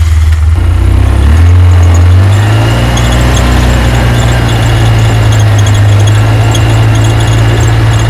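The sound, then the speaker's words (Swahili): Steady, loud, low engine drone from a special tourist vehicle driving toward chimpanzee habitat in dense forest, the rumble deepening and settling about two seconds in, with a faint high whine running over it throughout. “Sasa tunasafiri kwa gari maalumu la watalii kuelekea eneo wanakopatikana sokwe ndani ya msitu mnene.”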